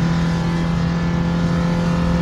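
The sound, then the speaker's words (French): A Renault 5 car accelerates in third gear at around 140 km/h. Its engine gives a loud, steady droning note with a strong low hum that holds throughout. “La troisième est beaucoup plus longue à monter. C'est normal. On est déjà à 140. Pour une R5, c'est pas mal.”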